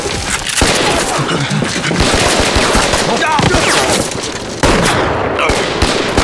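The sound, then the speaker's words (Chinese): Heavy gunfire in a battle scene, with dense, continuous bursts of rapid shots and sharp cracks, loud and unbroken for the whole stretch. “别开枪，我们都是自己人。”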